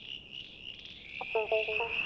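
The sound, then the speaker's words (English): A male southern brown tree frog calls with a short burst of rapid, pulsed croaks, heard over a steady high-pitched insect-like trill. “That's the sound of a male southern brown tree frog looking for a date.”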